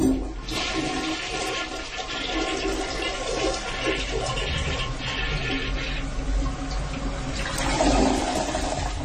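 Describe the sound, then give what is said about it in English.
A toilet flushing: a loud, steady rush of water that runs unbroken for about nine seconds, with no talking. “Flush me down the toilet. I'll flush you down the toilet, baby. Here you go.”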